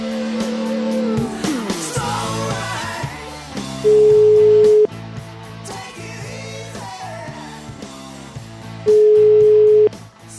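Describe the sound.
Telephone tone while placing a call, a steady mid-pitched beep sounding twice for about a second each, separated by a few seconds, loud over ongoing background music.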